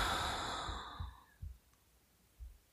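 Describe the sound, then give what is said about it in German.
A deep breath in and out during a relaxation exercise: a soft, breathy exhale, quiet and unhurried, that fades out over about a second and a half and leaves near silence. “Und atme einmal ganz tief ein und aus.”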